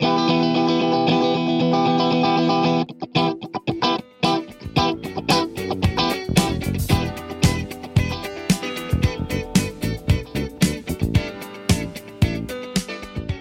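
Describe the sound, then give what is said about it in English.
Electric guitar strummed with left-hand muting: after a ringing sustained chord, the playing switches to a steady funky rhythm of choppy, percussive muted chucks, with only some chords ringing out, bright and effect-laden, with no voices. “press your left hand alternately up and down so that only certain chords are highlighted and other ones just become this kind of rhythmic, well, chuck sound. Let's hear that.”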